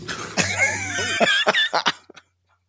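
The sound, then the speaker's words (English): A harsh cough from something stuck deep in the throat: a strained, voiced hack followed by a quick run of a few choking coughs, then abrupt silence. “when you get something stuck, you know, deep in your throat, it's a different kind of noise than you make if you're just trying to clear it.”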